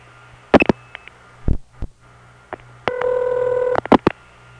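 A telephone number being dialed: a few sharp clicks and brief tones, then one sustained electronic dialing tone in the middle, followed by more clicks. No voices.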